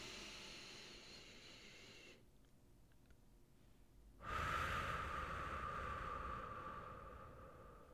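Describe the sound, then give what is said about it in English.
Slow, deep breathing during a guided meditation: a soft airy breath, a quiet pause, then a longer, louder breath of rushing air that gradually fades. “Inhale. Exhale. One more time.”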